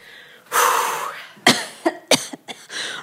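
Harsh coughing from a person whose throat is irritated by incense smoke: one long rasping burst, then several short, sharp coughs in quick succession, with no talk.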